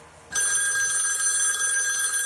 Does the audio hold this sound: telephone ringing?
yes